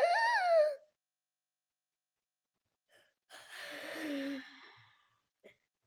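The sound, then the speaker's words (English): A slow, deep exhale during a calming breathing exercise, heard as one long breathy sigh that follows a short voiced sound and a quiet pause, ending with a faint breath. “breathing in for 4 seconds, hold your breath for 4 seconds, then slowly exhale for 4 seconds”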